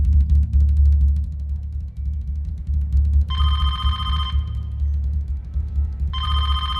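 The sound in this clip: A telephone bell ringing in two bright, trilling bursts over a steady low hum, the second ring cut off at the end.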